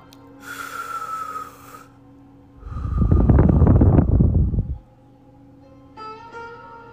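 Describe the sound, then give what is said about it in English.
Deep breathing on a guided relaxation exercise: a hissy inhale, then a long, loud, rushing exhale, followed by another inhale beginning, over a faint steady hum. “Let's go ahead and take a deep breath. Three times.”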